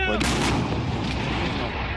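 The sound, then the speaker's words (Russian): A gunshot-like blast amid combat as troops advance into a village under artillery fire. A broad, harsh burst comes early, then a steady rumbling wash of noise continues to the end. “Выстрел!”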